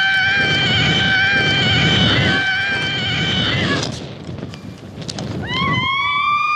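A woman screams during a bungee jump, a long, high, wavering shriek that breaks off, then a second rising cry begins near the end.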